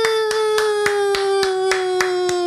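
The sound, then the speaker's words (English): Bare skin slapping against a belly as mock applause. About eight sharp, evenly spaced smacks repeat at a brisk pace over a steady humming tone. “That was just my dick hitting my belly.”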